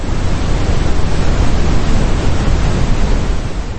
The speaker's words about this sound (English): And this is an example of pink noise.